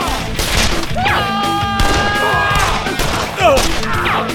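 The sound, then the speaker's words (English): Gunfire erupts in a rapid fusillade: many loud, sharp shots crowd together in dense bursts, with brief whining tones cutting through the clatter. “One of the first shots hit Two Hatchets in the left temple.”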